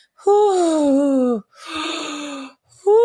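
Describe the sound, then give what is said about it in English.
A voice imitates slow, heavy breathing during labour: three drawn-out, moaning exhalations. The first and last are strongly voiced and the middle one is more breathy, with short pauses between them. “You were just like breathing. You were just going,”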